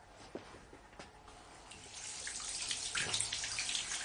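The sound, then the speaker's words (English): A £2,000 wristwatch dunked in water: a few soft taps and drips, then a swelling, bubbling rush of sloshing water, fairly quiet overall. “It cost £2,000, and it'll never stop working. Even underwater. As if. And it's true. Look.”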